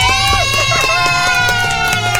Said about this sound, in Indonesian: Tepuk tangan dong.